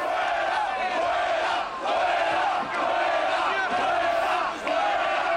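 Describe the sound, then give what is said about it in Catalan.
A large crowd of Barça fans at Camp Nou, waiting below for people to come out of the directors' box, roars and chants in a loud, sustained mass of voices that dips briefly a few times before surging again. “El públic que al camp del Barça esperava a baix la sortida de la llotja.”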